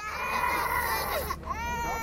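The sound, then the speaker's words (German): Two children crying hard right after a paramedic gave them injections in the upper arm, at the Turkish-Syrian border during a refugee crisis; continuous loud wailing with a wavering pitch and a brief break near the middle. “Herzzerreißend heulen die beiden Kinder von Sarife. Gerade sind sie von einem türkischen Sanitäter gestochen worden, mit einer Spritze in den linken Oberarm.”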